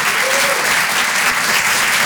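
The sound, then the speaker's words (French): Audience applause for a comedian at a comedy club, a dense, steady clapping that holds at full level throughout. “Bravo Hugo. Merci beaucoup. Rire et Chanson, Rire et Chanson. Rire et Chanson Comedy Club. Merci d'applaudir très fort”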